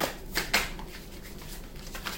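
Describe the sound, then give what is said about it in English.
A tarot deck is shuffled during a love reading. Brisk, papery riffling bursts are soft and fairly steady, with a couple of slightly louder flicks near the start. “May I have some cards for Libra, please, in regards to love?”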